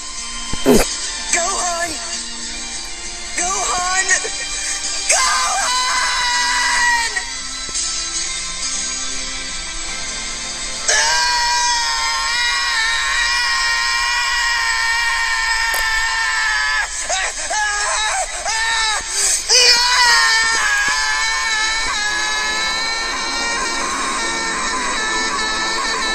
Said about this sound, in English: So if you could hear that darkening, threatening voice in the background, that was the Oozaru.